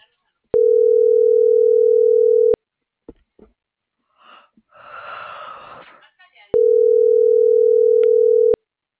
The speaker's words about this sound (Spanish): ¿Ya le estoy marcando? No. No contesto.